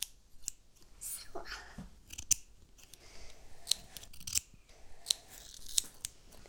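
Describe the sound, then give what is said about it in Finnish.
Scissors cutting carefully, likely wielded by a child: a series of crisp, quiet snips at irregular intervals, with soft rustling of the material between cuts. “Nyt men leikan. Jaha, du ska klippa nu. Med saxen.”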